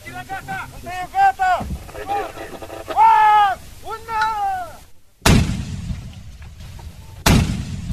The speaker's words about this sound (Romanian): cu trageri reale cu armamentul individual din dotarea companiilor participante, la care s-au adăugat mitralierele de pe mașinile blindate MLI 84 MJD-ul, aruncătoarele de 120 de mm și aruncătoarele de bombe de 82 de mm.